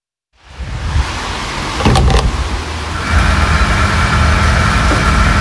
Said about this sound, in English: This is the sound of the most important fuel in the world being bought at a price it's never been bought at before.